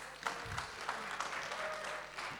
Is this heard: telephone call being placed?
no